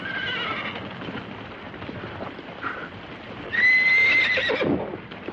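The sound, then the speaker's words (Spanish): Horses neighing and hooves clopping as a group of riders halts before a palisade in the 1954 film Seven Samurai: steady hoofbeats throughout, then a loud, shrill whinny near the end. “Un grupo de jinetes se detiene frente a ellos.”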